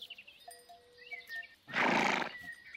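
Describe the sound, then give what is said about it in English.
A bucking bronco horse gives one loud, rough, breathy whinny burst in the middle, set among quieter, faint tonal sounds before and after. “Next day, Cowboy Small rides a bucking bronco.”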